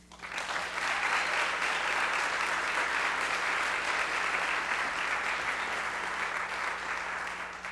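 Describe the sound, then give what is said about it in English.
Applause from an audience at a university student association event welcoming a guest speaker: many hands clapping in a thick, even roar that swells in quickly, holds steady, then eases slightly at the end. “Please welcome Boris.”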